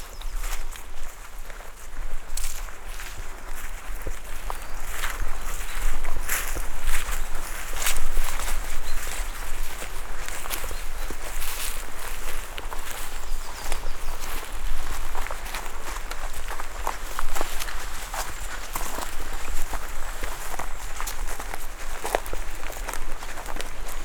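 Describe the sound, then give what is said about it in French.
Footsteps on a grassy mountain trail, a steady run of crunching, scuffing steps that carries on without a break for the whole stretch at an even, fairly loud level. “Voilà, vous marchez, c'est le départ.”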